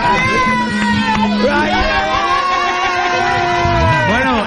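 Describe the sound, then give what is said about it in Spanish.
A group of people shout and yell together in loud, overlapping cries with wavering pitch, continuing without pause throughout. “Este grito que acabáis de escuchar es porque viene el McDonald's, tío.”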